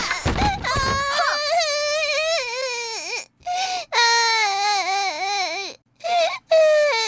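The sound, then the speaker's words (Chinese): A hurt, bleeding child cries in long, high-pitched wavering wails. The wails are broken into several bursts by brief pauses and end with short sobbing gasps. “乖，不哭不哭，奶妈看看啊。”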